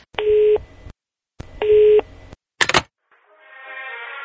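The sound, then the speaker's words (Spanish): Telephone tones as a call is placed: two steady, buzzing electronic tones about a second apart, then a sharp click as the line connects, followed by a softer sustained sound. “Vamos a marcar, aquí es el 045-33. A ver, ya está dando tono.”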